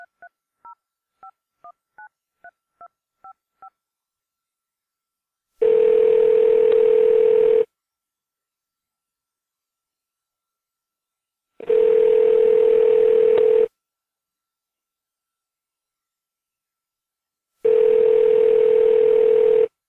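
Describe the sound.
Telephone keypad tones dialing a call-in message line: a quick run of short, evenly spaced beeps, then three long, loud, steady ringing tones separated by silent gaps.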